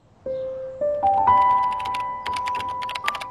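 Computer keyboard typing in a dormitory room, with quick, clattering keystrokes. Many irregular clicks fill the second half over steady, stepped tones.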